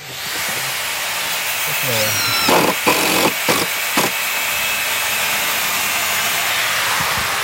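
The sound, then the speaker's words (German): Hammering at an open-air festival site being built next to a tennis court: a few sharp knocks bunched together midway through, over a steady hiss of background noise. “Es wird gehämmert und geschraubt neben dem Tennisplatz zu Bonaduz.”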